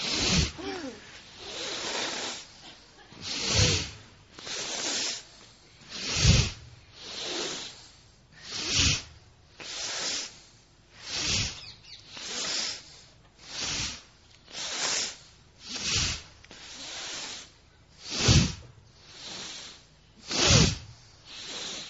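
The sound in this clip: Deep breathing in and out during a physical exercise: many slow, evenly spaced airy breaths rise and fall in a regular rhythm, heard alone without talk.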